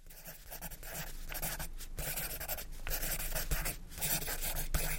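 A saliva-moistened pencil scratches across paper, writing in thick letters. The dry rasping strokes run steady and fairly loud, broken by a few short pauses.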